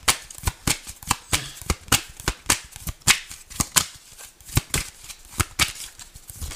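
Rapid shuffling of a deck of tarot cards: many crisp, papery riffle snaps follow in a quick, uneven rhythm for several seconds, loud and clear, with no voices.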